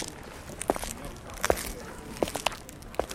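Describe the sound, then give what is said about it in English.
Footsteps walk across a cobbled courtyard in downtown Zagreb: a few faint, sharp heel clicks spaced unevenly over a low, steady background hum. “Walking through a cobble courtyard in downtown Zagreb, we enter the Heffer Art Workshop.”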